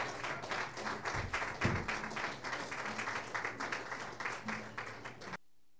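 Audience applause welcomes a performer at a music evening, a fairly faint, dense patter of many hands clapping steadily for about five seconds before it cuts off abruptly.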